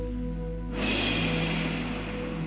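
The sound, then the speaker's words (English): A deep breath drawn in during a prayer: after a brief quieter stretch, a long airy inhale begins and holds as a steady breathy hiss over a soft sustained tonal drone. “And everyone, take in a deep breath and receive the Holy Spirit.”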